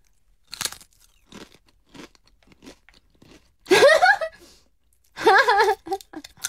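Vinegar-flavoured snack chips crunch as they are bitten and chewed, with a few spaced, crisp bites. Louder voiced sounds from people follow later.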